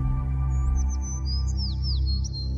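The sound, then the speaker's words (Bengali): A bird gives a few thin, high whistling calls, some sliding in pitch, over a steady low hum. “একটা পাখি ডাকল”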